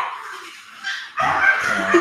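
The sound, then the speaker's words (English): A pet dog at home barks and yips in the background of a conversation, a few sharp, fairly loud bursts after a quieter stretch. “so sorry for the background. Yeah. That's life with dogs, guys.”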